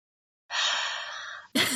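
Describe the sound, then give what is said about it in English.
A deep breath taken alone: a long, airy, rushing intake lasting about a second and holding fairly steady before easing off, with another breathy sound beginning right after it. “Deep breath.”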